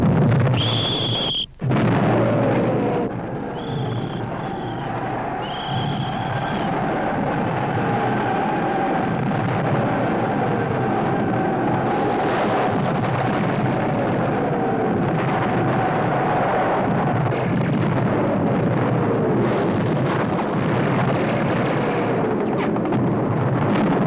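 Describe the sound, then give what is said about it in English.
Barrage of 75mm artillery guns firing in a trench battle film scene: a loud, continuous roar of overlapping blasts and rumbling, with brief high whistling tones near the start, sustained for over twenty seconds. “Order the 75s to commence firing on our own positions.”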